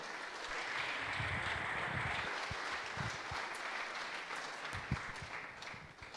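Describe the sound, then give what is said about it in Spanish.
Audience applause welcomes a speaker at a church school gathering: dense, steady clapping that holds at an even, moderate level for about six seconds with no voices on top. “Lo recibimos con un fuerte aplauso, por favor.”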